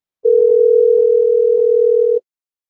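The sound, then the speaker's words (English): Telephone ringback tone on an outgoing call: a single steady, loud electronic tone held for about two seconds and then cut off, with faint clicks underneath. “I'm calling back right now. It's ringing.”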